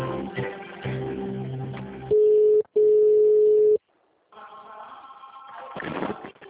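A telephone call on hold while being transferred to HR: muffled line sound gives way to two steady electronic tones, a short one and then a longer one of about a second, followed by a gap and then faint, muffled line sound again.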